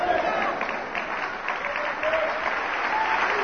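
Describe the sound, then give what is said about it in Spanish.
Applause from a church audience during a sermon, a dense, steady wash of many hands clapping that holds at an even loudness throughout. “Espero que ese aplauso es porque está entendiendo esto, ¿no?”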